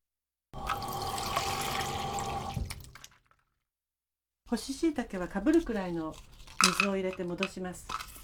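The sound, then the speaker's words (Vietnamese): Water is poured over dried shiitake mushrooms to soak them, a steady splashing rush lasting a couple of seconds that fades out. After a pause, a person talks. “Bước đầu tiên là ngâm nấm hương vào nước.”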